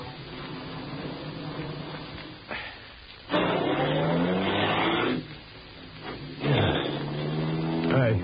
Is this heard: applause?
no